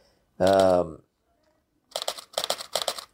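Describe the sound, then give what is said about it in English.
A camera shutter clicks while photographing goldfinches on a flowering peach tree. A brief voice comes first, then after a pause three quick bursts of crisp mechanical clicks follow one another. “This click, click you're hearing is my camera. There are goldfinches on the peach tree, and that's a beautiful picture of the peach flowers and the goldfinch sitting there.”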